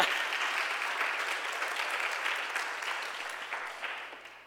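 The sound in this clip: Audience applause at a Vision Sunday gathering: sustained, even clapping from many hands that tapers gradually over several seconds.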